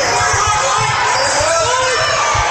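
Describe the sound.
A basketball being dribbled on a court makes regular low thumps under dense crowd noise and a talking voice.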